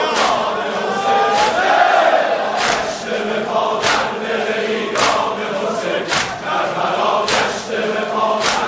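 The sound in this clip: A large crowd chants at a religious mourning gathering for Hussain in Iran. The massed voices stay loud and dense, with sharp percussive beats landing roughly once a second throughout.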